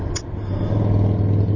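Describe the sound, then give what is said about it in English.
Road traffic heard from a car crawling at about 3 km/h in heavy congestion. A steady low engine rumble and hum run throughout, with a brief hiss near the start. “You can hear the amount of traffic. This is how slow. I've barely travelled 3 kilometres an hour.”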